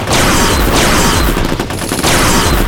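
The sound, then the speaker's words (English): Heavy gunfire in a rainforest combat scene: dense, overlapping volleys of shots form a loud, continuous roar of rapid reports with no voices. “Oh, hostile! Open fire! Open fire!”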